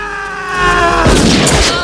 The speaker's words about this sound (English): Ellen shoots Eugene and he falls to the ground.